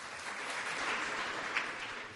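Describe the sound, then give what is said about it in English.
An audience claps to welcome a newspaper columnist onto a political discussion panel, a steady, dense wash of applause that holds level throughout. “Please give a warm welcome to Mary.”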